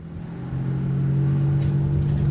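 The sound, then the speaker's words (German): An old, worn-out car drives through Chicago's South Side with its exhaust roaring: a steady, low engine rumble that swells slightly after the first half second and then holds, with no voices. “Dixon steuert sein altersschwaches Auto durch Chicagos Southside. Der Auspuff röhrt”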